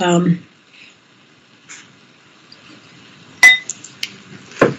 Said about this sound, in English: we don't have music, but I'm going to go ahead and play the bowls behind me.